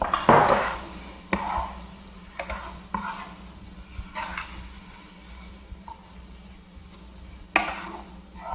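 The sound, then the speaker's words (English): Sauce with soy sauce is stirred in a pan, irregular scraping and knocking of a utensil against the pan, loudest at the start, then sparser strikes over a soft, steady low hum. “Finally, I'm going to add a teaspoon of soy sauce, or about. And if you just give that a stir for me, it'd be great.”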